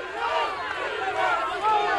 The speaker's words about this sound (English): The six women yell freedom as dozens of pro-Castro counter-demonstrators surround them.